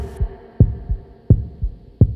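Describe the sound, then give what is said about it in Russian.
Heartbeat thumps in a steady lub-dub rhythm, three low, loud double beats over a soft sustained tonal hum. “Сердце бьется сильнее, я прошу.”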